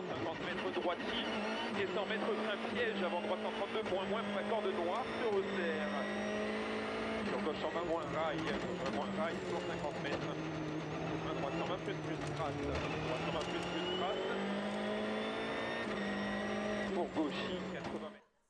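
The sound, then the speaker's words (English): Rally cars race across rough terrain, engines droning and revving loudly and without a break, their tone shifting throughout before the sound cuts away at the very end. “To give you a bit of a glimpse of what this is like, I'm going to just show you a clip now, a short clip. This is rally racing.”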